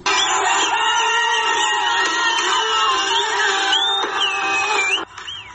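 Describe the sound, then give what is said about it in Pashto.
A large crowd in Afghanistan cheers and shouts to celebrate the national cricket team's win over Australia. Many voices merge into a loud continuous roar with whistle-like cries, then it drops sharply just before the end. “بلور ته د استرالیا په وړاندې د افغانستان د کرکټ د ملي ټیم پرونی بریا په افغانستان او بهر کې ګڼو افغانانو په شور او زوږ لمانځلې ده.”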